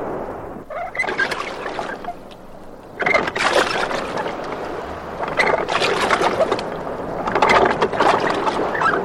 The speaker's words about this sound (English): Okay, here, catch. I'll row at the same time. That way neither one of us will get too tired.